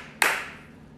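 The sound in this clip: A single sharp clap from an audience member, one crisp hit followed by a short fading tail and then quiet.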